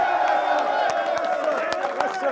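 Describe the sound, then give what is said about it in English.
Stadium crowd celebrating at MetLife Stadium as the New York Giants win and clinch the NFC East title, a dense, continuous roar with scattered sharp claps and cheers throughout. “And that's your ball game. And they're celebrating in the aisles at MetLife Stadium. The New York Giants are the NFC East champions.”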